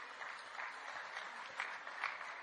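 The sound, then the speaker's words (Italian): Audience applause at an official speech acknowledging a community leader: a fairly faint, steady wash of many hands clapping that continues without a break. “Yes, give her a big round of applause.”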